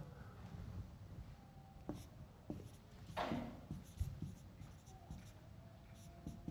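Handwriting on paper: soft, scratchy pen strokes that come and go, quiet and uneven, with a few brief taps between them.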